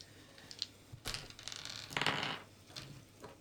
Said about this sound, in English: Mini dice. They're so little.